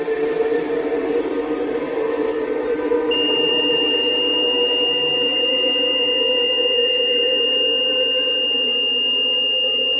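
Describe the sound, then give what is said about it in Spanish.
A high-pitched beep sounds as a camera is readied for a photo beside a monolith. A shrill, steady tone cuts in partway through and holds unbroken over a constant low rumble. “Apenas prepara la cámara, suena un pitido.”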